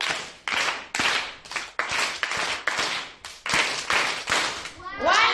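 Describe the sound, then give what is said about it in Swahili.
Church audience clapping in unison for the singers: sharp, loud claps in a repeating rhythmic pattern, many strikes in quick, evenly spaced bursts with brief gaps between them. “Basi tuwapongeze waimbaji kwa makofi matatu.”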